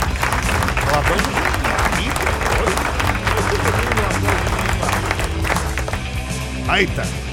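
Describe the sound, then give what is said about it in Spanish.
Studio audience applause on a Spanish-language entertainment programme, a sustained, loud crowd clapping with voices and cheers mixed in, easing slightly near the end. “¿Dónde están los aplausos? Espérate.”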